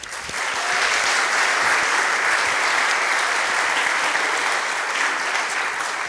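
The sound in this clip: A lecture audience at the Monadnock Summer Lyceum applauds to welcome a speaker. The clapping is loud and sustained, rising quickly and then holding steady for about six seconds.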